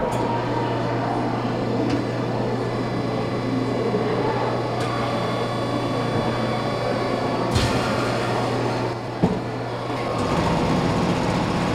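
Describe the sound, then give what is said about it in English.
Mechanical rumbling and steady hum from a Mold-A-Rama vending machine in a museum as it molds a warm yellow plastic chick. The drone runs continuously, broken by a couple of brief clunks, and its tone shifts near the end. “Lots of rumbling. And then eventually out popped a warm yellow plastic chick.”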